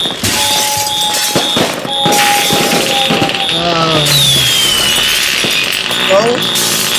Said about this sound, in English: It's Chinese fireworks. Oh my god. Oh. It's pretty.